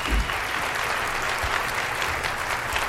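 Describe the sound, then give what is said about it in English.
Audience applause greets Tim Cook as he takes the stage at a developer event in San Francisco: dense, steady clapping from a large crowd holds at an even, loud level throughout, with no voices on top. “Tim Cook taking the stage now to great applause.”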